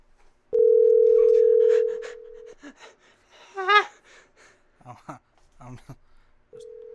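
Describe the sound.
A telephone ringback tone on an outgoing call: a steady, mid-pitched ring of about two seconds, then people talking and gasping, then the next ring starting at the end.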